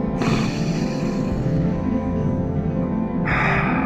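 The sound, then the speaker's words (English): A deep inhale taken during a guided breathing exercise, one long, steady, airy breath held for about three seconds before the sound shifts. “Let's breathe in.”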